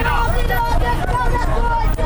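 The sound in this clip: Busy market street crowd in Kabul's Pul-e Khishti and Timur Shahi area, a loud continuous hubbub of many overlapping voices and chatter, dense and steady throughout.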